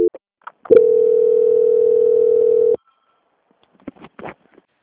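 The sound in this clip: A telephone line tone plays during a call transfer: one steady, loud, mid-pitched tone lasting about two seconds, followed by silence and a few faint, brief clicks.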